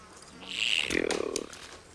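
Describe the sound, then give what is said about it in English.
A bee buzzes in a garden as a brief buzzy drone that swells and fades within about a second. “Valdine's picking flowers in Jack's garden. Ugh, damn bees!”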